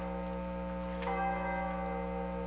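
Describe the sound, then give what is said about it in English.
A nearby church bell tolls a funeral knell: one deep stroke rings out near the middle over a steady, sustained humming resonance that lingers throughout. “the nearby church bell was tolling a funeral knell. Those church bells are quite ominous.”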